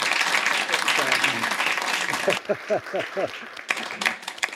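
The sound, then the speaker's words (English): Audience applause at the end of a business talk on purpose-driven partnerships. A thick wash of clapping runs for about two seconds, then stops abruptly and a person talks. “Can we give Alf a round of applause?”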